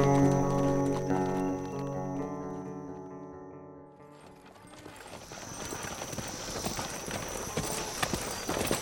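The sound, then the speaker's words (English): Horses' hooves clip-clop at a soft lope as riders move down a line of wagons; a held tone fades first, then a steady, rhythmic patter of hoofbeats takes over. “The two men rode down the line of wagons at a soft lope until they left the caravan behind”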